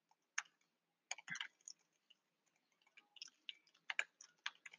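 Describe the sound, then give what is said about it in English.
Faint computer clicking as a mouse clicks an on-screen button, with many small, sharp clicks scattered in irregular clusters and no talk. “So you're going to click create skill.”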